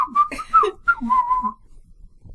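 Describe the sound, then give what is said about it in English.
A man whistling a short tune alone: a few quick, wavering notes and then a longer held note, before the whistling stops and silence follows. “Hello, I'm the Whistling Man, just doing all your whistling for you.”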